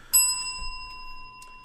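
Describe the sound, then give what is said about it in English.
A bell struck once, giving a bright metallic ring whose clear tones hang and fade slowly over more than a second, with no voices. “Oh, easy on the bell, man. I'll get you a new one. Fuck it. No. I like that bell.”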